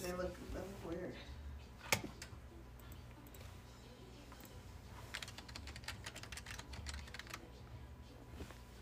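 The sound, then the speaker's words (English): Typing on a computer keyboard: many quick keystrokes clatter in a steady, uneven stream, with a sharper key hit early on, all fairly faint beneath people talking. “Let me type it in.”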